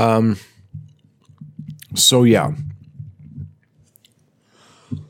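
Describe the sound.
Someone chews French fries dipped in mayonnaise, making soft, wet, irregular mouth and squishing sounds, with brief voiced murmurs at the start and midway.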